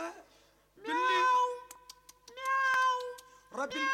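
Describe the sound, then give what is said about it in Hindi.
A cat meows a few times, each a clear, drawn-out, high-pitched meow, with short gaps and small clicks between calls. “बिल्ली बिल्ली मलाई खाएगी”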